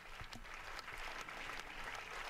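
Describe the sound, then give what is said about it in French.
Applause from an assembly of dozens of people in a packed synod hall, following the presentation of a pope's first encyclical: steady, dense clapping that is fairly faint and continues without a break for the whole clip. “C'est donc le pape Léon XIV, applaudi en ce moment par l'Assemblée, des dizaines et des dizaines de personnes dans une salle du synode comble”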